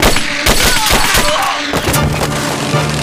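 Gunshots fire from the direction of a power distribution room in a rapid series of loud, sharp cracks over a dense, rumbling background.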